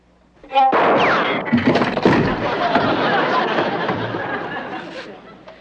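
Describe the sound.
A gunshot fired from a trick violin gun: a sharp, loud report followed by a long, noisy wash of sound that slowly fades, with people chattering underneath.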